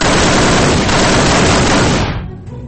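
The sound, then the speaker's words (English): Machine gun fire from a pair of machine guns: one loud, dense, continuous burst of rapid shots lasting about two seconds, then a short fading tail. No voices are heard. “Have a taste of my two prized machine guns.”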